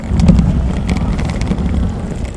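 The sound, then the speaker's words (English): Small carry-on luggage wheels tugged along at a shopping mall give a continuous gritty rumble with faint rapid ticks, steady in loudness throughout and heard alone. “These are the wheels of a tiny purple piece of carry-on luggage.”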